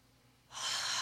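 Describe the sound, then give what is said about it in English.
A single deep breath drawn in, rising suddenly out of near quiet into a loud, steady, airy rush that holds to the end, with no voice. “So let's breathe that in.”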